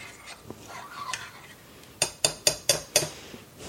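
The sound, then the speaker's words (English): A spoon stirs sauce for slow cooker Korean beef in a bowl. Soft scraping and stirring come first, then five sharp, bright clinks of the utensil against the bowl follow in quick, fairly even succession. “Then stir that up.”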